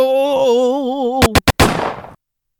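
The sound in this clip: Gunshots in a comedy sketch: four quick, sharp bangs fire in rapid succession right after a wavering sustained tone. The last shot trails into a brief noisy decay before silence.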